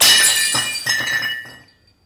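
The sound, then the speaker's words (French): A china plate smashes: one sharp, bright crash, then a few further clinks and rattles of shards. The sound fades out after about a second and a half, with no voices. “maman disposait toujours une autre assiette à côté de celle de mon père. Il avait le droit de la briser.”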